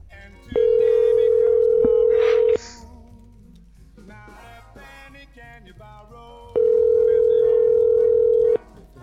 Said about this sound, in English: I'm just going to call the whole neighborhood till someone picks up.